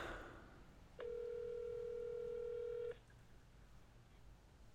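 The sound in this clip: A blocked phone call to a food delivery driver sounds as a single steady electronic tone, clear and mid-pitched, holding for about two seconds before cutting off, over a faint background hiss.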